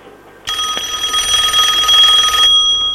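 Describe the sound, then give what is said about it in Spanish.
A telephone rings with an incoming call: one loud, bright, trilling ring starts abruptly, holds for about two seconds and then cuts off, with no talk. “Sí, parece que tenemos llamada.”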